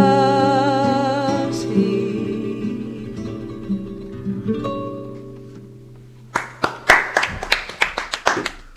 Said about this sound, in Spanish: Parecen poco aplausos, pero son muchos más. Porque está todo el país aplaudiendo en su casa.